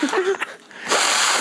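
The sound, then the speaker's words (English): A person snorts loudly into the microphone, a harsh, breathy rush of air that follows a moment of voice and then holds for about half a second. “Snorting one, freebasing the mic.”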